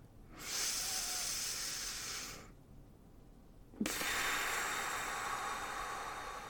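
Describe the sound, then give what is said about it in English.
Slow, deep breathing during a guided breathing exercise: two long, airy, hissing breaths separated by a short quiet pause, each steady and fairly loud with no voice. “Inhale for a count of 3 and exhale for a count of 3.”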